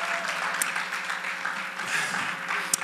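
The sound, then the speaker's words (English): A church audience shouts and claps in praise, a steady wash of cheering and applause that carries on evenly from start to finish. “Give God a shout of praise in this room.”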